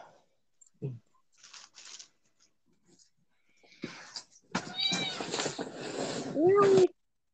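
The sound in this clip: Cats meowing indoors, a few tonal meows with rising pitch clustered toward the end, mixed with soft rustling and shuffling noises after scattered faint taps and bumps.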